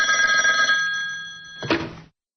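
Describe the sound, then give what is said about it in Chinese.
A telephone bell rings in an office, a steady bright trill that swells briefly near its end and then cuts off abruptly. “几天以后的一个下午，正在办公室里修改稿子的刘栋突然接到了柳三环打来的电话。”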